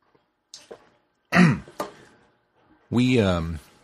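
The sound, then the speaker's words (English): Someone clearing a tickly throat: a few short, rough hacking bursts, then a longer, loud, voiced, gravelly rasp against silence. “I have a tickle in my throat, and it's right on the verge of being there. Excuse me.”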